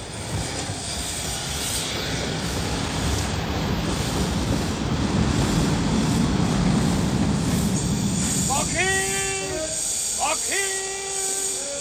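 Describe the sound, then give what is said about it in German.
A train rolls past with a heavy, continuous rumble. In the last few seconds it is joined by several sharp, high squealing tones. “Ja, der Zug.”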